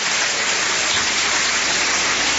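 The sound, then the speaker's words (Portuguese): A church audience claps their hands together in a dense, loud, steady wash of clapping that runs without any pause from start to finish. “Quem tem essa paz pode bater palmas e dar glórias a Deus.”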